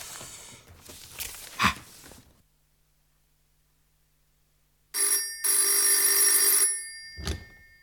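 A telephone bell ringing in a dramatized scene: soft rustling and a bump, a brief silence, then a loud sustained metallic ring lasting under two seconds, followed by a short clunk, with no talking.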